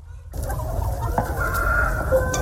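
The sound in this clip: Chickens of a special meat breed cluck and call on a poultry farm, giving a steady overlapping chatter of fowl sounds over a low background rumble.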